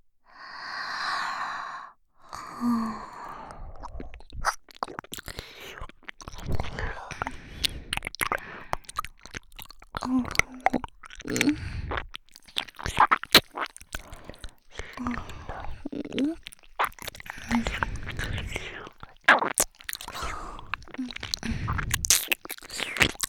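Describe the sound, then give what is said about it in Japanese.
Eating a meal: after an opening sigh, a long run of crisp clicks and soft crunches from chewing and biting continues throughout, moderately quiet with a few breaths between. “いただきます。”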